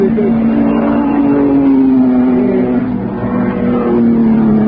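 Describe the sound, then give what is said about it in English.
Engine note of a Type 51 Bugatti racing car running around a race course, a loud, steady droning hum whose pitch wavers slightly, with no break from start to end. “There's a Type 51 Bugatti on the course somewhere, going very regularly, very nicely. We'll see it go around in a minute. And the chaps who pull sounds out of the air will catch you its note.”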